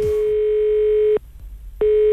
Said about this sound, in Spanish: El teléfono está activo, atención.